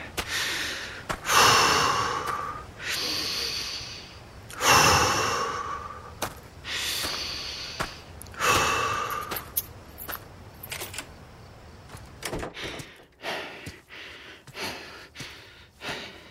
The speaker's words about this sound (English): Deep breaths.